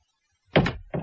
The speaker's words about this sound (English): I touched the door, and it swung open.